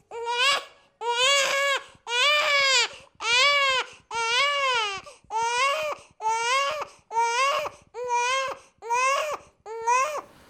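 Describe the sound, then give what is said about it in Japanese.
A baby cries in eleven loud, high-pitched wails. Each wail is separated by a brief breath, giving a regular sobbing rhythm, and no one speaks. “なんと中で赤ん坊が泣いているではありませんか。”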